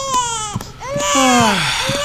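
An infant cries in her father's arms, a few loud wailing bursts with falling pitch, the longest sliding steadily downward before a short final sob.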